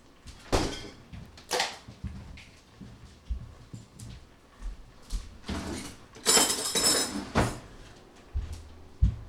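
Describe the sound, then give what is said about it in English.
Clunks and knocks as a bacon-wrapped dish is put into a freezer. Several sharp thuds and rattles of containers and the door come at irregular intervals between quieter stretches, with no talking. “So here, this is going in the freezer.”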